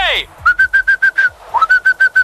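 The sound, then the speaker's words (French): Someone whistles to call a dog, two quick runs of short, clipped, evenly spaced whistles at a steady high pitch, loud and alone, the second run opening with a brief upward slide. “j'ose espérer que vous n'appelez pas votre stagiaire Max en sifflant, là.”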